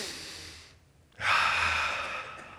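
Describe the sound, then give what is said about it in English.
Breathing in and out during a church sermon: an airy inhale fades into a short pause, followed by a louder, broad rushing exhale that slowly tapers off. “And right where you sit, just breathe in and breathe out. Go ahead. I want to hear it.”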